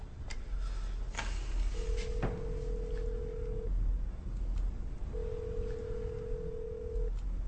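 A telephone call being placed: a few short dialing clicks, then two long, steady ringback tones with a gap between them, over a constant background hiss.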